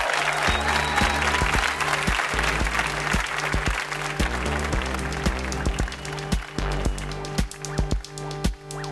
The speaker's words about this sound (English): Big hand for Jad Abumrad.